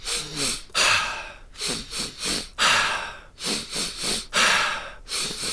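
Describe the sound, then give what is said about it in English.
Deep breathing exercise with big, full breaths drawn in and pushed out in a steady rhythm, many loud, airy breaths, with longer heavy inhales recurring among shorter ones, no talking. “by the time you get to your third breath, you want to feel like you're pretty full. So, you're taking like really nice big breaths in.”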